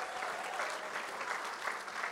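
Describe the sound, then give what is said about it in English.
Audience applause welcoming a pastor to the stage: sustained, even clapping from many hands, fairly soft and continuous throughout, with no single claps standing out. “Yeah, let's give Billy a hand as he's coming up. Let's give him a warm icon welcome.”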